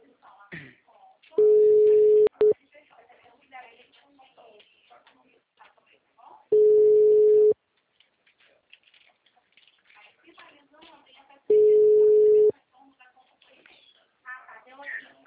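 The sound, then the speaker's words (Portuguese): Ringback tone of an outgoing telephone call: three steady, low-pitched beeps, each about a second long and spaced roughly five seconds apart, with faint clicks and rustling between them. “tô ligando pro cliente, peraí.”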